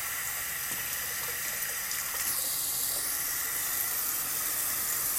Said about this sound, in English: And now I'm just rinsing out my recycling.